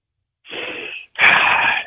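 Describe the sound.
A man draws a deep breath and blows it out hard: two breathy rushes of air with a short gap between them, the second stronger and rougher than the first, alone with no talk.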